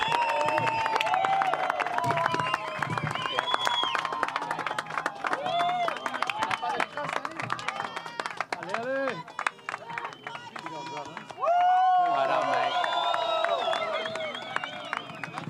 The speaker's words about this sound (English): Let's make some noise for our best team.